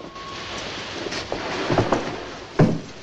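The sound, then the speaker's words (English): A train at busy Waterloo station makes a rumbling, rattling noise across the concourse, with scattered metallic clanks and a loud clunk near the end. “At a busy Waterloo station, a group of servicemen are gathering, smoking while they wait for the train.”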